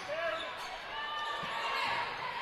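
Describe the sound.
A basketball is dribbled on the court during a girls' high school semifinal game. A few soft, low bounces sit under a steady wash of crowd noise.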